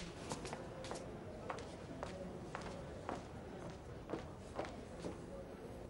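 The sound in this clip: Footsteps of a man walking away, a steady series of soft footfalls at an even walking pace over a continuous background hiss.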